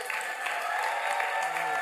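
An audience at a stage show applauds a guest coming onstage, with an even wash of clapping that continues without a break.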